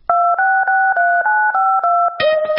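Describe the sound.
Touch-tone telephone keys dialling a number: a rapid, evenly paced run of loud two-pitch beeps with short gaps between them, ending on a brighter, more complex tone.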